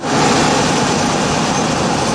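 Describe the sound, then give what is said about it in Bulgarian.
Steady, loud rumbling hiss inside a new passenger railcar train travelling from Sofia to Gorna Banya, continuous and even throughout with no voices. “Влизаме в новата мотриса. Пътуваме от София до Горна Баня.”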